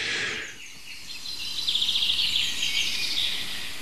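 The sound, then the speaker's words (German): Birds sing and chirp on a cloudy, overcast morning, a rapid trill of high bright notes repeating over a steady broad hiss of background noise, with no talking. “Und viele schöne andere Vögel nutzen diese bewölkte, verhangene Morgenstunde, um der Welt zu sagen, wer sie sind.”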